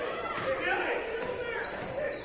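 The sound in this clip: A basketball dribbled on the court during a basketball game, repeated bounces mixed into a steady wash of crowd noise, with people talking over the action.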